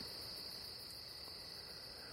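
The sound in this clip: A dense chorus of night insects chirping outdoors forms a steady, high-pitched, shimmering drone. It holds at an even, soft level throughout with no clear breaks, separate chirps or voices.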